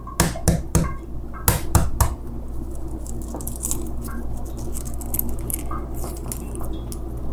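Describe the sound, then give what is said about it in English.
Hard-boiled eggshells cracking as they are peeled, a quick run of sharp snapping cracks in the first two seconds followed by fainter, scattered crinkling of shell fragments. “let's take a moment to enjoy the sound of eggs cracking here.”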